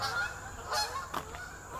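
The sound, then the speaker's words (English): Geese honking as a flock of about two dozen flies overhead: a steady stream of overlapping honks with a few louder bursts rising out of the flock's noise, no talking. “oh my, the geese are going to be flying right over top of me.”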